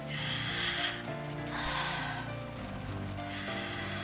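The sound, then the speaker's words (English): A person breathing slowly in and out: three soft, airy breaths rise and fade over steady low tones, with no talk. “Look me in the eyes and breathe in and out.”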